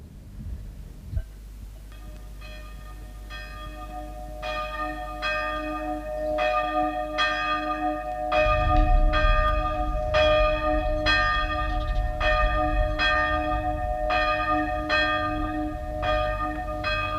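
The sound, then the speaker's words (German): Church bells toll for a funeral in a steady, even rhythm of many ringing strikes, with their metallic tones overlapping. A deeper, fuller rumble joins about halfway through and continues under the ringing to the end. “Das Geläut dieser Glocken macht mich krank. Das Begräbnis dauert schon mehr als 2 Stunden.”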